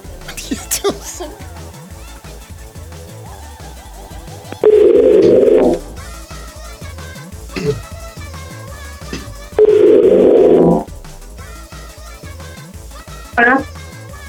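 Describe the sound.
Telephone tones on a line while a number is called: two steady, buzzing low tones, each about a second long and several seconds apart, over continuous background music.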